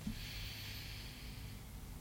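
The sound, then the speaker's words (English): A slow inhale through the left nostril during alternate nostril breathing makes a soft, airy hiss that lasts about a second and a half. It is faint and quiet. “inhale through right, and exhale through left. It's one round. Inhale through left,”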